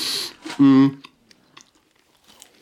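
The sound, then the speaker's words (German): Chewing and crunching on a dry cookie, with a few short crisp bites and mouth sounds after a brief burst of voice, then quieter chewing fading out. “Schau, ich muss das hier nebenbei erstmal ein Plätzchen essen, das nützt hier nicht.”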